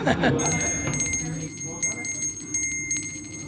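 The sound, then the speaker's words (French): Small handbell rung to announce the next round at a casual paddle game gathering: bright, high tinkling rings repeated a few times, with voices and background murmur underneath. “Vous avez une petite clochette, c'est pourquoi ? Pour annoncer le prochain round.”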